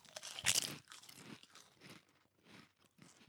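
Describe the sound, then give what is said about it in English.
Crunching of BLT sandwich flavored Lays potato chips: one loud, sharp crunch near the start, then a series of softer crunching chews in an uneven rhythm, with no talk. “Does it have a flavor? Does it have a flavor? I didn't taste much of anything. Is this one of those chips where you have to like eat four at a time?”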